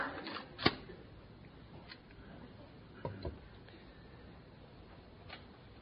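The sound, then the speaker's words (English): Sharp plastic clicks and light clatter from a cassette tape being flipped over in a tape player. A few distinct clicks, the strongest early on and others later, with faint handling noise between them. “Got to flip the tape. 1st, you got to be smarter than the tape player.”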